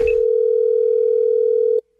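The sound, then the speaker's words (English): Telephone line tone for a prank call to an airline passenger, a single steady pitched hum held loud and even for almost two seconds before it cuts off abruptly. “It's Gavin's phone scam on the Wake Up Call.”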